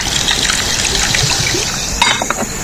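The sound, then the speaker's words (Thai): Soda poured into a glass of S99 rum, a continuous fizzy liquid rush and trickle, loud and steady, with a few sharper splashes near the end. “อันนี้ S99 นะครับเติมด้วยโซดาครับ”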